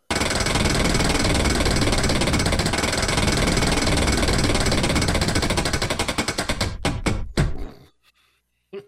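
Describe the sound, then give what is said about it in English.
A prize wheel for a betting game spins with loud, dense, rapid ticking from its pointer. Toward the end it slows into distinct, widening clicks, then stops and leaves silence. “All right, it's time to spin that wheel.”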